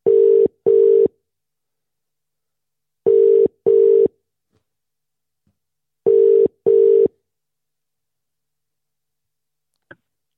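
Ringing tone of an outgoing phone call: three double rings at a steady mid pitch, evenly spaced with pauses between pairs, followed by a faint click near the end and no talking.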